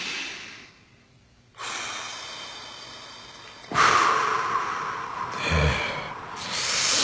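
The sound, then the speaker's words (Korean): Slow, deep breathing during a relaxation breathing exercise, with long breathy rushes of air in and out that swell and ease in a steady, unhurried rhythm, with no talking over them. “4초간 숨을 들이마시고 2초간 참았다가 6초간 길게 내뱉기. 4, 2, 6입니다.”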